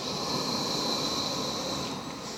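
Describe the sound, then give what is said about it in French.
A long, steady inhale during a yoga breathing exercise, heard as soft, continuous hissing airflow with no talking. “Donc on inspire,”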